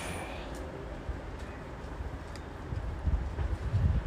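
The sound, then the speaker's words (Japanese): Autumn wind blowing outdoors in Sapporo, Hokkaido, during a walk: a steady, low, breathy rush that swells into stronger gusts toward the end. “秋風ですね涼しいですね風があるとねほんと涼しいです札幌はすっかり秋ですねおうおう結構吹くね風がねえ”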